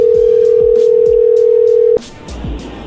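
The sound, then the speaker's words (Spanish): Telephone dial tone from a call being placed again: a steady, even hum holds for about two seconds, then cuts off abruptly into rougher line noise. No clear ringing follows. “le vamos a marcar de nuevo y tú le contestas”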